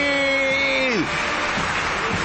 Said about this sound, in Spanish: Fuerte el aplauso, Estudio Mayor de Radio Splendid.